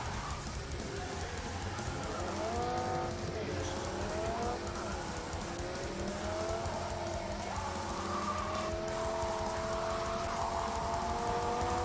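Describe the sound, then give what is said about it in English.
Engine of a car accelerating hard in a video game, a loud continuous roar with harmonic tones climbing steadily in pitch as the vehicle is floored. “I drive under every car. No way. I'm just gonna floor it under this.”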